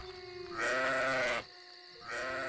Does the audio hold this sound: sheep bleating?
yes

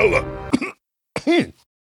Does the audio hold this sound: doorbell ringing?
no

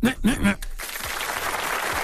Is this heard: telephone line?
no

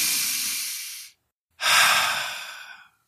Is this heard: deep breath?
yes

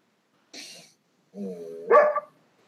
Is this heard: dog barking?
yes

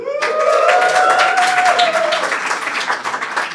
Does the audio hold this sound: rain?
no

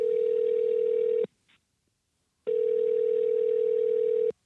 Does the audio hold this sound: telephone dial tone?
yes

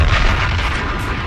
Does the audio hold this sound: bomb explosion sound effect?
yes

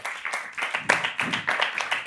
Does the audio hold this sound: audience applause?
yes

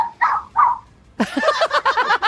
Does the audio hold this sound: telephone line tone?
no

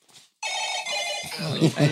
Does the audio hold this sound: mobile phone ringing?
yes

